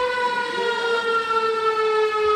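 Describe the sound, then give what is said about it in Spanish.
A civil defense siren sounds in Otxandio for the 90th anniversary of an air raid, a loud, sustained wailing tone rich in harmonics, wavering slightly in pitch and heard alone without voices. “Sirena esta mañana en el 90 aniversario del ataque aéreo Otxandio”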